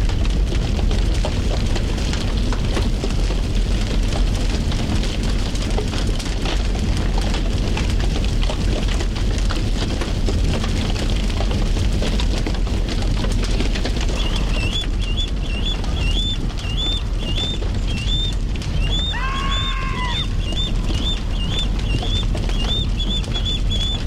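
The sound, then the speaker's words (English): Fire burning a fir tree on Burnaby Mountain, British Columbia, gives a steady, dense crackling patter that runs throughout, with a few high bird chirps appearing in the latter part. “Given the mass of the tree, the team is confident that the fir will not burn down completely, and the investigation into the cause of the fire is still ongoing. And hear the sound of fire.”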